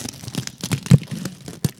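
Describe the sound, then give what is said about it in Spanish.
Aluminium foil crinkles and paper tears as sound material for a production, giving irregular crackly rustling punctuated by several sharper bursts, with no voices. “orgánicos, sí, que es papel aluminio, el desgarre de los papeles”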